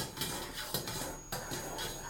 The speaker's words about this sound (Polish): wsypuję sobie pierwsze dwie łyżki kaszy i zaczynam mieszać.